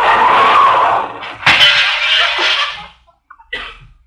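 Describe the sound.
A car crashes and its windshield breaks: a rushing skid of noise gives way to a sharp crash and a long, scraping clatter, then a short quiet and a few faint rattles.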